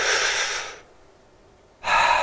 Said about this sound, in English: you put your hand on your stomach and you push out with your stomach when you breathe in